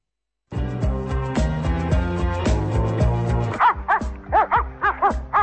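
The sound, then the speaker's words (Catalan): Dog barking in many quick, high yapping bursts in a steady rhythm, following a sustained tonal passage at the start. “I això què és? Aquest és el gos que va mossegar el gat”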